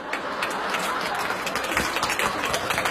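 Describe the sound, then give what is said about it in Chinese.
Audience applause during a Chinese comedy sketch, a dense, even patter of many hands clapping that holds steady for the whole stretch. “别鼓掌了”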